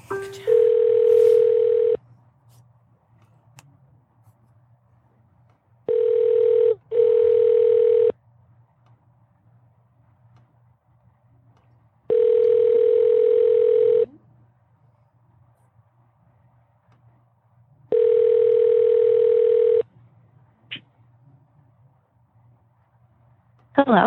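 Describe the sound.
Ringback tone of a phone call being placed to a guest on a live radio show: four steady, even electronic tone bursts of about two seconds each, separated by longer silences, clear and alone with no talk.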